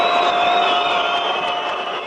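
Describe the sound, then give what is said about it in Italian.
Crowd whistling in protest at Vladimir Putin after a martial arts bout in Moscow: loud, sustained shrill whistles hold steady over a dense crowd roar throughout. “E l'uomo che tenta di parlare in mezzo a questi fischi è, pensate, Vladimir Putin, premier russo per la prima volta contestato in pubblico al termine di un incontro di arti marziali a Mosca vinto da un atleta russo su un americano.”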